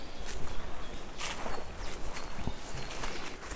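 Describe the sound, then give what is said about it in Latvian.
Footsteps walking along a forest trail in a protected nature area, a steady run of soft crunching steps over ground noise with no talking. “tad sanāk, ka mēs tagad ejam pa to taku”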